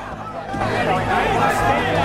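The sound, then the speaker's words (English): A crowd of angry men gathered around a police car outside a mosque, giving a continuous babble of overlapping male voices and murmuring. “It drives on towards a crowd of angry men gathered round a police car waiting outside the mosque.”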